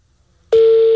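A telephone tone on a call that goes unanswered: after half a second of quiet, a single steady mid-pitched beep starts abruptly and holds loud and unbroken to the end.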